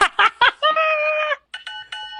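A doorbell-like electronic chime rings: a few short tonal hits, then one longer sustained tone and a couple of brief tones after a short gap. The tones are clear and bright, and no talk is heard.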